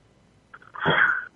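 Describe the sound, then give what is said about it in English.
A single sneeze: a short breathy catch, then a loud, forceful burst lasting about half a second before it cuts off. It is heard on its own with no talk. “Excuse me, I had to sneeze.”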